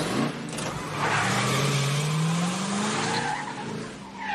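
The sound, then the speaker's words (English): A car peels around a corner, its tires letting out a loud, sustained screech that rises slightly in pitch over a continuous roar of engine and road noise. “Mikey peels around the corner.”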